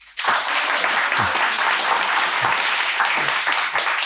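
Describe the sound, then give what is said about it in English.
Sustained applause from an audience packed into the Edinburgh Bookshop during a festival event, breaking out abruptly and holding as a dense, loud wash of clapping. “Well, as you can hear, there's an audience here in the shop”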